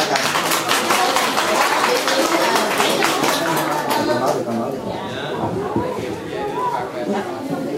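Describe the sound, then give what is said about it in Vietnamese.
An audience at a Buddhist retreat applauds in a dense burst of clapping that slowly thins out. Chatter and voices carry on through it. “vỗ tay quý vị.”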